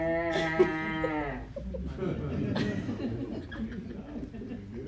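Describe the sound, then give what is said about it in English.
Cattle lowing in a quiet night setting: one long, low, buzzy moo opens. It then gives way to a softer, rumbling muddle of lower sound. “It's silent. All that can be heard is the gentle lowing of the cattle.”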